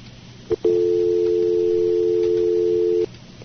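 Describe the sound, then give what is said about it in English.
A phone line tone sounds after a caller is disconnected from a call-in line: one short blip, then a steady, loud, low-pitched continuous tone that holds for about two and a half seconds before cutting off. “I disconnected one caller there.”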